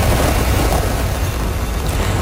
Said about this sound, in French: And lift off. Go Falcon Heavy and go Roman Space Telescope.